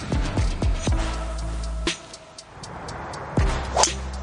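A golf club swishes and cracks against the ball on a 333-yard shot at the pin. The sharp, high strike comes among a few other brief clicks over a low background hum.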